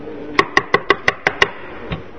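Knocking on a door: seven quick, evenly spaced raps, then one fainter knock after a short pause.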